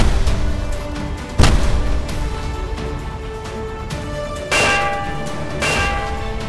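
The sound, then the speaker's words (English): Magnetic harpoons are fired and bounce off a metal ship hull with loud metallic clangs. Three ringing impacts with long resonant tails rise over a steady rumbling background. “Prepare to fire the magnetic harpoons. Loaded and ready, sir. Good. Here she comes. And fire the harpoons”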